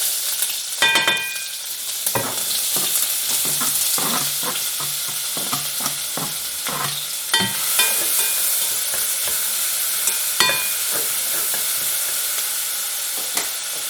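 Bacon sizzles in hot lard in a pan on a stove while it is stirred, giving a steady bright hiss punctuated by many scraping, clattering stirs. No voices are heard.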